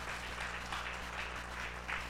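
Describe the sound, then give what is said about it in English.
Hand clapping from a church audience, a steady patter of many hands with faint pulsing swells, moderately quiet over a low steady hum, no voices. “Come on, give the Lord a hand clap.”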